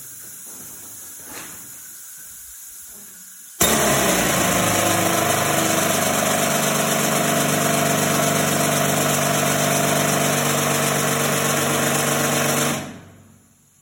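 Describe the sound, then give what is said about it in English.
A rock drill runs without touching the rock. It starts abruptly after a low hum, holds a loud, steady, hissing mechanical roar with a droning tone for about nine seconds, then stops. “And this was with the volume turned way down. Without the drill even touching the rock, it was deafening.”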